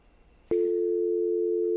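A telephone dial tone after a failed call: a sharp click, then a single steady low-pitched hum that holds evenly and unbroken to the end.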